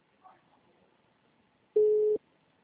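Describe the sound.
A telephone tone from an unanswered call sounds as a single steady, mid-pitched electronic beep lasting under half a second, clear after faint low noise.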